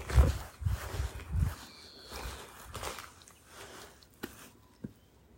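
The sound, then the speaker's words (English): Footsteps of someone walking down toward an allotment in the evening: a few uneven, low, soft thuds on the ground, followed by a couple of sharp clicks near the end, with no talk. “on the allotment. Not quite on the allotment yet. I'm walking my way down there.”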